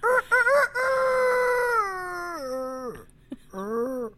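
Rooster-like crowing: a few short choppy calls lead into a long, drawn-out crow that slides downward in pitch and drops off, followed by a brief final call.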